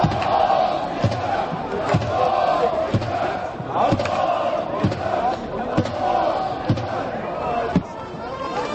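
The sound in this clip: Kazakh football fans chant and cheer in a stadium, a dense, loud crowd roar with steady rhythmic thumping beats about once a second running beneath the voices throughout.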